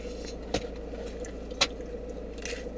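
Biting into a crispy base of a spicy pizza: two sharp, short crunches, then a softer third, faint over a low steady hum, with no talking.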